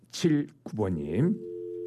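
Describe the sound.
A steady telephone line tone sounds as a call to a landline is placed. Brief speech comes first, then the even tone holds alone for the last half second.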